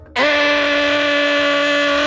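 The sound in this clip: A power tool at a construction site, heard early on a Saturday morning, starts abruptly and runs with a loud, steady, high-pitched harmonic whine at an even pitch.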